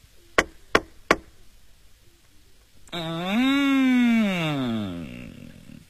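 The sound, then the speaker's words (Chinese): Three sharp, evenly spaced knocks on a door at dawn, loud and crisp, followed after a short pause by a drawn-out tonal sound whose pitch rises and then falls. “孙悟空见东方发白，正要去寻找金柜，忽听有人叩门。”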